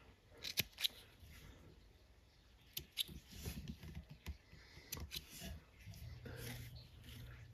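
Scissors snip a thread tail at a fly-tying vise: a few crisp, sharp cuts separated by soft handling and rustling, with quiet bursts of activity between the snips.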